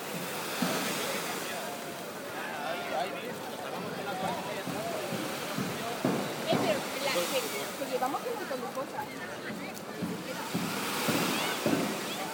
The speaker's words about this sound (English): The tide is getting higher.